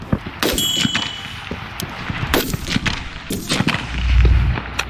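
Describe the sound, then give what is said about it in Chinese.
Gunshots during rapid precision target shooting: several sharp cracks at short, uneven intervals, with a low rumble building near the end. “重新瞄准目标，再次激发。时间紧张，精度速射对于射手控枪能力有极高的考验”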